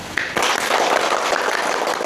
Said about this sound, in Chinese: 下面让我们以热烈的掌声欢迎二位同志。